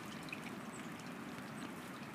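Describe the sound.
Water trickles by a river in a natural outdoor spot, a faint, steady wash of soft hiss that runs unbroken throughout, with no voices.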